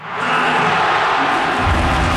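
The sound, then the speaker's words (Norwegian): Roughly 35,000 football supporters roar at Ullevål stadium as the final whistle confirms Norway's 2-1 win over Brazil. The loud, dense crowd roar swells quickly at the start and holds steady throughout. “Rundt 35 000 supportere på Ullevål eksploderte jubel da slutsignalet gikk.”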